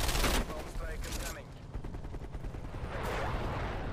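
Gunfire during a video game shooter match, with many rapid shots rattling in dense bursts that stay loud and steady from start to finish.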